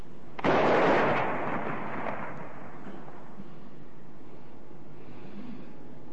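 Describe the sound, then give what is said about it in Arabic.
A Ramadan imsak cannon fires once, a loud sudden boom followed by a long, fading rumble that trails off into quiet background noise over several seconds. “مدفع الإمساك”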